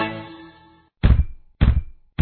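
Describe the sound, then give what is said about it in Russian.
Knocking on a door: three heavy, thudding knocks spaced about half a second apart, following a fading musical tone and a brief silence. “Кто стучится в дверь ко мне с толстой сумкой на ремне?”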